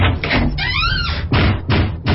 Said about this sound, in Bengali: দরজা জানলা সব খুলে গেল, তারপর হঠাৎ করে সব বন্ধ হয়ে গেল।